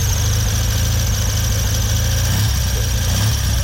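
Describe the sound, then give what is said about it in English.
Engine of a Triumph TRW 500 military motorcycle, still its original unit, shipped to Canada in 1956, idling steadily, a continuous loud low rumble with an even, rapid throb and no voices. “500 Triumph, TRW, 16,000 were made for the armed forces. This one went to Canada in 1956 in a crate with a spare engine. It's still got its original engine,”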